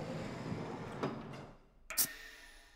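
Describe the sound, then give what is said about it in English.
A door closing aboard a spacecraft: a soft, faint rushing slide ends in a brief bright click over a steady background hiss. “Floating into the room, the engineer closes the door.”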